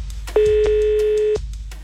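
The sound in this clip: Telephone ring tone on a phone call: one steady, even electronic tone that lasts about a second, alone against a quiet line.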